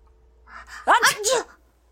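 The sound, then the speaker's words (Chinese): A voice performs a sneeze in an audio drama, where two characters sneeze at once: a voiced, wavering build-up breaking into a few loud bursts, heard alone. “小四子和萧良同时扬起脸打了个喷嚏”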